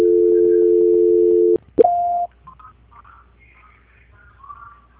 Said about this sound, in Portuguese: Ah, sim, só um momento que a ligação caiu, eu vou transferir novamente.